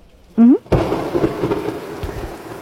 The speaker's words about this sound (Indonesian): Ya hujan.